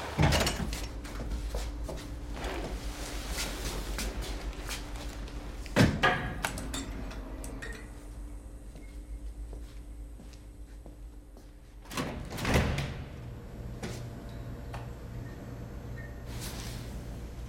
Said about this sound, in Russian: Джек паркуется в тупике. Открывает темно-синюю металлическую дверь.